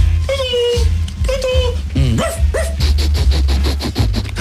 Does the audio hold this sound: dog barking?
yes